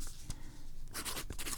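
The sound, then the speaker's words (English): A pen scratches out the month on a bank statement, faint and dry, with one brief stroke followed by a quick cluster of scratchy strokes. “Okay, so what we do is we write the month on it.”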